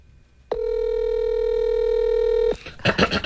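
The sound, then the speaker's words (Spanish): A telephone dial tone hums steadily and loudly for about two seconds, then cuts off and is followed by a few short, noisy tone bursts. “Ahí está marcando. Este sí se escucha no, cuando marca.”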